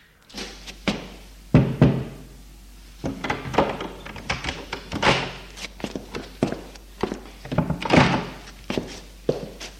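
Knocking on an office door and someone entering: a busy run of many sharp knocks, thumps and footfalls of varying loudness, with no talk.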